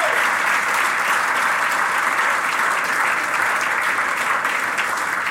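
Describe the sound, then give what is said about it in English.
Audience applause congratulating a woman at a women's country sports event: dense, steady clapping that holds at an even, loud level throughout with no pause. “Will you put your hands together and give Christy?”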